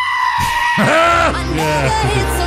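Goats screaming in a pop song parody, loud, wavering, bleating cries that rise and fall in pitch in quick succession.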